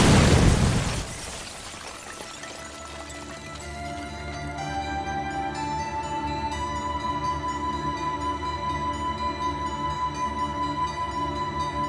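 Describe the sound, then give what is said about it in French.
A stun grenade thrown into a room explodes with a sharp, loud burst. A long, steady high-pitched ringing tone with layered harmonics follows and lingers to the end. “La réponse lui parvint lorsque deux grenades paralysantes, sitôt jetées dans la pièce, explosèrent.”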